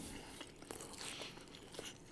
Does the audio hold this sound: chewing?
yes